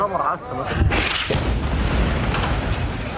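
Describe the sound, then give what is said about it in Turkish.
A violent explosion at night in Deir el-Belah, Gaza, as a house is struck: a sharp, deep blast breaks into a loud, sustained rumbling roar that keeps going to the end. “Şiddetli bir patlama yaşandı. Gecenin karanlığını alevler aydınlattı.”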